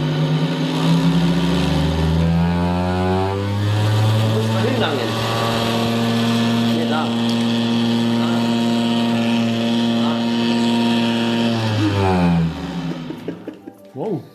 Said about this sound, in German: also die Frau setzt sich da drauf, dann schaltest du es ein und dann kannst du hier drehen zwischen der Vibration.